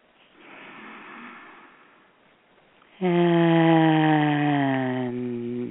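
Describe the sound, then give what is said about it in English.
Deep breathing in a guided meditation: a soft, airy inhale lasting about two seconds, then a loud, sustained low voiced tone on the exhale that holds steady and eases slightly near the end. “So take some deep breaths.”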